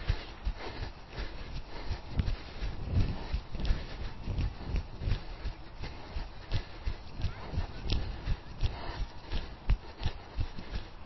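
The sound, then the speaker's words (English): Footsteps of a person jogging outdoors: a steady, rhythmic series of soft thudding strides that continues throughout at an even pace. “I'm going to take a little jog before I do my stretches.”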